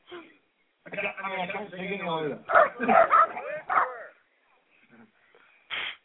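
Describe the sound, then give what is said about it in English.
A dog gives a few short, sharp barks mixed in with people talking, then one more brief bark after a quiet pause. “And my dog is barking.”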